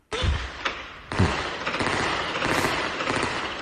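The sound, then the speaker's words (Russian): Small arms gunfire during a firefight, with a grenade explosion: a few sharp, heavy thumps stand out early, then dense, continuous crackling fire carries on without a break. “Послушаем стрелковый бой. Интенсивность его. О, граната. Точно граната.”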